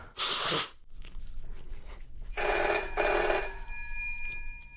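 Telephone ringing with a sustained, bright bell-like tone that begins about halfway through and holds steady to the end, preceded by a short, noisy burst and a brief quiet gap.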